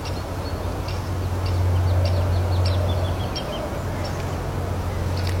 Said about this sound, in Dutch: Dat was een boomleeuwerik die blijkbaar het voorjaar een beetje in de bol heeft, want die was een beetje aan het zingen, die er voorbij vloog.